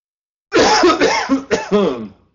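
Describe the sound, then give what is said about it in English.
Several harsh, dry coughs from a person with a dry throat, loud and alone, coming in quick bursts with short breaks between them. “Talking too much, got a dry throat here. sorry about that”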